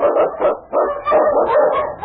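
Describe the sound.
Husky sled dogs barking and yipping excitedly, the lead dog of an Eskimo sled team, in loud, dense bursts that run almost without a break through the whole clip.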